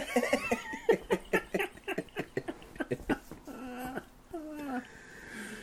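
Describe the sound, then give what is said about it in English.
A restless dog that wants to go outside whimpers in the background, its thin, wavering high whines showing up among a run of quick rhythmic bursts and people's voices. “And the dog looks a little upset. Yeah. Wants to go outside. You can hear the dog in the background.”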